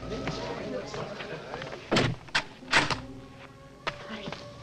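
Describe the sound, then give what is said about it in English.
A door being shut and locked, a few sharp thuds and clicks close together in the middle, with quieter voices around them. “She quickly lets him in and locks the door.”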